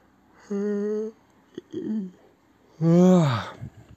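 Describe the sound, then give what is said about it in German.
A person yawns with voiced, groaning breaths: a short tone, a brief catch, then a long, loud yawn whose pitch falls toward the end. “ich muss jetzt nochmal gähnen”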